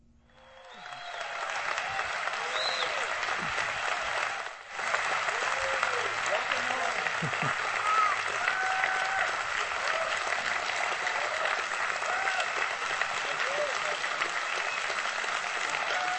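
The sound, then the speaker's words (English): An audience applauds to welcome a guest speaker invited to share that weekend. The clapping swells over the first couple of seconds, then stays loud and dense, with a brief dip, for about fifteen seconds. “I want you to give just the best Seacoast welcome you can give Jeff Surratt as he comes to share with us this weekend. Can you give it up for Jeff?”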